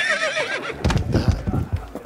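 A horse in a video game whinnies, a loud wavering neigh that falls in pitch, followed by several low, rough pulses.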